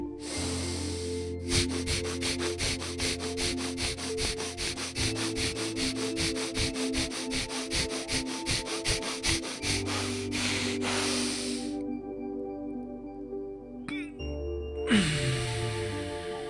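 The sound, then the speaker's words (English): Rapid breathing exercise in a guided meditation: many quick, even inhales and exhales in a fast steady rhythm over a sustained tonal drone, then the breathing stops. “preparing for butthole breath, remember rapid inhales, exhales through the butthole, butthole only.”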